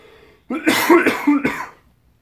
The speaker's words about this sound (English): excuse me for the cough